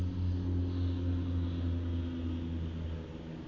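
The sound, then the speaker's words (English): Low, steady engine rumble of aeroplanes flying overhead near an airport. The deep drone holds through the whole stretch and eases slightly at the very end. “More aeroplanes. I live near the airport”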